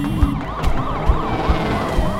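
A police car siren wails loudly in quick rising and falling sweeps as the car pulls into a parking lot, with a few low thumps underneath.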